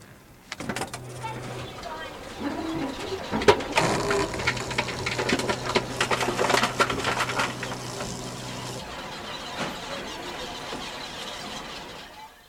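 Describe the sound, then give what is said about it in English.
A supermarket reverse vending machine takes in returnable bottles and cans with a steady motorised whir, high squeals and crunching, clattering bursts as the containers are crushed. The hum runs for several seconds, then cuts off, leaving quieter mechanical rattling. “The sound is made by a machine at a supermarket that eats returnable bottles and cans and dispenses”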